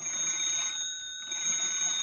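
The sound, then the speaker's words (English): A telephone rings with a steady, bright, high-pitched electronic trill that is sustained throughout and dips briefly in the middle. “Just as she felt tears coming into her eyes, the phone began to ring.”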